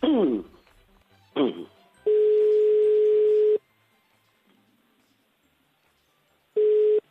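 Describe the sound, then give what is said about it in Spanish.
A telephone line rings back while a call is being placed: two short sweeping electronic blips, then a long steady mid-pitched tone. After a pause of about three seconds the same tone starts again. “Estamos llamando, venga, vamos allá.”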